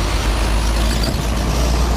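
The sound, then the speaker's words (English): Commercial trucks crossing an international border bridge in Texas make a steady, loud low rumble of heavy engine and road noise that holds constant throughout, with no talk. “Every day, more than 40,000 commercial trucks cross over the Far International Bridge, carrying things like fruits, vegetables, and machine parts.”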